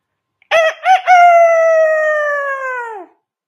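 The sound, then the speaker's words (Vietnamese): A rooster crows loudly and alone: two short, clipped notes, then a long sustained call lasting about two seconds that sags in pitch as it fades out. “Gà trống giận tình lại là một tiếng trường đề.”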